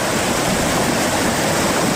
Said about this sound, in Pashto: د دوی په خبره چې اوس هم په خړ کې پریمان اوبه بهیږي او دوی یې ستونزو سره مخ کړي دي.